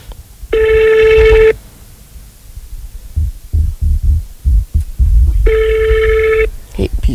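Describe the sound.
A telephone rings on a call: two steady, buzzing electronic ring tones, each lasting about a second and spaced roughly four seconds apart, with irregular low thumps and rumbling noise between them.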